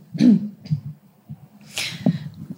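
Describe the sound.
A person coughs while choking after forgetting to breathe mid-sentence. A few harsh, abrupt coughs and breathy gasps come in uneven bursts, with no words spoken.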